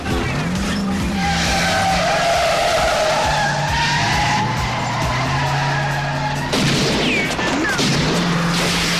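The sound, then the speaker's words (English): Getaway vans speeding off after a robbery, with loud, continuous screeching tyres and roaring engines, van doors flung open. “flee into one of the waiting vans that drive off at speed with the van doors flung wide open.”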